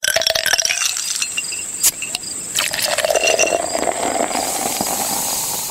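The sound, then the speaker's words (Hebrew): Ice cubes clink in a full glass, a few sharp bright clicks over a steady, loud hiss that runs throughout. “דמיינו רגע רקע אדום, כוס מלאה בקוביות קרח ואז את הצלילים האלו.”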